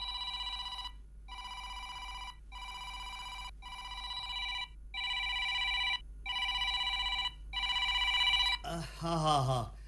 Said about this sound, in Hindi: घंटी थी वजे फोन खणो